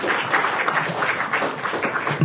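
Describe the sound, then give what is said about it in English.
Audience applause for conference presenters after a presentation, a dense, steady patter of many hands clapping at even loudness throughout, with no voices over it. “This is a fantastic presentation. Please put your hands together to congratulate our presenters.”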